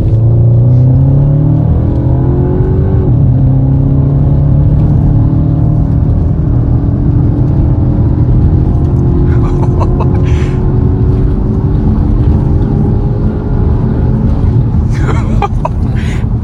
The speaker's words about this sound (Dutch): dan valt de auto letterlijk naar beneden. Gelukkig zal onze testrijder wat harder rijden, namelijk 150 km per uur.